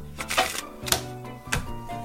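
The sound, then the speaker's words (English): Playing cards being given a quick shuffle, heard as a few short, papery riffling bursts with crisp clicks, separated by brief pauses over a steady low background. “I'm going to give these cards a quick shuffle.”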